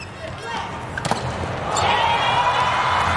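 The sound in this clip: A volleyball serve is struck during an international match involving Italy. One sharp hit cuts through a steady, loud crowd din that swells toward the end.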